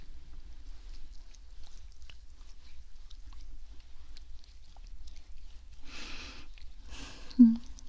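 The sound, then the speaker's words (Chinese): Palms rub massage essential oil together before a massage, giving two short, soft swishing bursts near the end after a long quiet stretch with faint scattered clicks. “这边我需要先把精油在手掌上化开，之后再帮你按摩，请稍等一下。”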